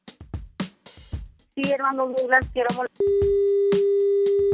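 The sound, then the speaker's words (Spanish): A telephone line tone sounds after a dropped call: one steady, flat, unbroken beep that follows a stretch of voices and runs to the end. “Oh, se cayó la llamada.”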